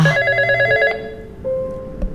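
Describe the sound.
A home telephone rings with a bright electronic tone built from steady stacked pitches. One longer ring is followed by a short pause, then a softer, lower tone.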